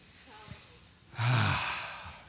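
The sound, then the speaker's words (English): A deep breath drawn during a church service as the audience is asked to breathe deeply. After faint breathing, one loud, full breath swells near the middle, then slowly fades. “Everyone breathe real deep.”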